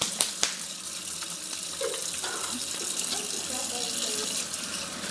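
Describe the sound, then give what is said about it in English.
Water runs steadily from a tap as someone washes their hands before cooking, a continuous even hiss after a couple of faint clicks at the start. “While she washes her hands”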